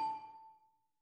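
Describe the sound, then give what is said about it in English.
A single metallic clang of swords striking in a sword fight, with a bright ringing tone that fades out over about a second. “It's swords in a sword fight.”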